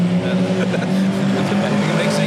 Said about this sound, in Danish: det er de, der kørte forbi der